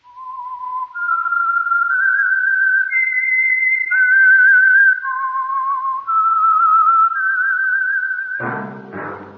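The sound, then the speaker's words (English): A whistled theme tune for a radio drama: one person whistles a slow, eerie melody of long held notes stepping up and down, loud and alone, before a brief low burst of other sound cuts in at the end. “That whistle is your signal for the Signal Oil Program, the Whistler.”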